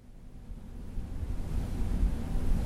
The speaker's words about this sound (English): It's a gorgeous New England autumn day, dockside at Quonset Point, Rhode Island. Crisp, clear blue skies, calm seas.